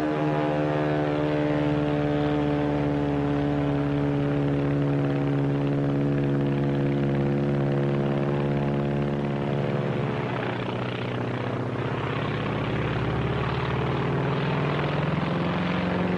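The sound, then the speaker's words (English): A Zero fighter plane's propeller engine climbing, a loud sustained droning roar with strong steady harmonics whose pitch drops partway through. “climbing to heaven like a skyrocket? Heaven's the wrong destination for that baby. That's a Zero, the real McCoy.”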